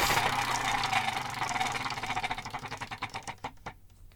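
A spinning game wheel whirs at first, then its clicks separate into distinct ticks that grow steadily slower and more widely spaced until the wheel stops, with no voices.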